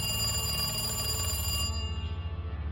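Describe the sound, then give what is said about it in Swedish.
A telephone rings in an office with dim lighting. The bright, continuous metallic ring has a low hum beneath it, and its high shimmer drops away as the ring turns into a softer pulsing rattle toward the end. “En telefon ringer på ett kontor med dämpad belysning.”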